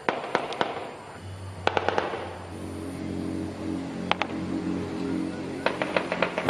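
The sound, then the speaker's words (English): Gunfire inside a crowded Venezuelan jail during a fight between rival prisoner factions: sharp, loud cracks in several quick clusters, some shots closely spaced, over a steady low hum. “This is the sound of gunfire inside Los Teques jail.”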